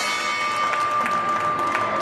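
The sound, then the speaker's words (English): The closing bell rings on the New York Stock Exchange floor, a steady, sustained ringing tone throughout, with light clapping underneath. “The bells bring an end to the trading day at the NYSE.”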